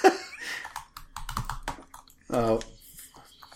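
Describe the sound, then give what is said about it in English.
Typing on a computer keyboard produces a short run of light, quick key clicks, with people talking around it. “Just type in here, hold on.”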